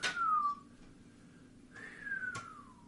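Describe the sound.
A person whistles two long gliding notes, each sliding downward in pitch, separated by a short gap. The whistling is clear and alone, with a brief click near the end of the second note.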